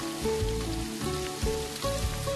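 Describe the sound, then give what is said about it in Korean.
Sweetfish, large and cut into three pieces, frying in oil, giving a steady crackling sizzle like light rain that runs throughout at an even level. “많이 커가지고 혹시나 뼈나 머리 쪽이 부담스러울까봐 살을 양쪽으로 잘라서 세 조각을 내가지고 튀기는 거예요.”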